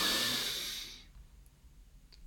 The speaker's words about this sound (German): Und noch einmal ganz tief einatmen.